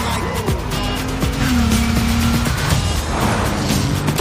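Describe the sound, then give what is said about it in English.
A Lexus LS 500 drives off in a car advert, with squealing tires and a sustained engine tone over steady, loud road noise. “Experience luxury performance that takes the crown. Presenting the all-new Lexus LS 500.”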